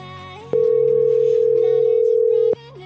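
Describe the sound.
Telephone dial tone on an auto-dialer: a loud, steady single-pitched hum lasting about two seconds, starting and stopping abruptly over a murmur of background sound.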